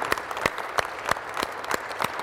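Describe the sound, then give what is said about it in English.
A church audience claps in a steady rhythm, sharp hand claps landing on an even beat, about seven in a row, with no talk over them. “Can you give the Lord a hand clap this morning?”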